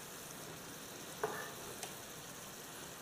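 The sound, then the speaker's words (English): Beef sears in a pan with Worcestershire sauce, giving a faint, steady sizzle. Two small pops break through briefly. “That'll get right in there, a little Worcestershire sauce. There's nothing hurt. I just want to get a little sear on this beef, which is starting to happen as we speak.”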